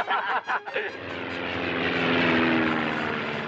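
A propeller airplane performing aerobatic stunts, its engine drone rising into a loud, sustained roar that builds steadily and holds, preceded by a few brief, choppy bursts of sound.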